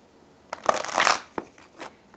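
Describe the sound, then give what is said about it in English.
A deck of cards is shuffled and a card is drawn: a short papery riffle burst of about a second, followed by a few softer card taps and flicks, fairly quiet and without talk. “And I'm going to pull a card for all of us first.”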